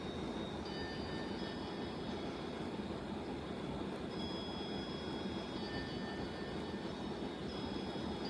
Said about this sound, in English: Fire up the APU. The APU has been started.